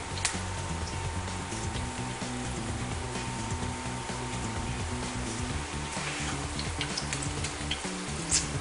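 Food frying in a pan as pieces are flipped and browned until crispy: a steady sizzling hiss with scattered small pops throughout, no talk.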